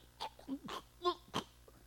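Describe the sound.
A voice imitates a lamb's dying sound as its throat is slit, with a few short, strained, throaty bursts. Two of them carry a bleating, voiced edge, separated by brief gaps.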